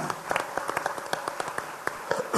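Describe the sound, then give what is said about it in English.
Scattered audience clapping at a regional community and business event: many separate, sharp claps in an irregular patter, moderately quiet and thin rather than a full dense ovation. “And big round of applause.”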